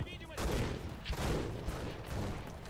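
Bursts of machine-gun fire from a Degtyaryov machine gun in a video game, rapid loud crackling volleys that start abruptly and repeat in several dense bursts.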